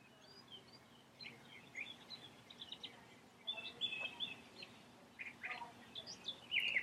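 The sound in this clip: Spring birds calling outdoors in America: faint, scattered chirps and short whistled calls over a low hush of background noise, growing busier toward the end.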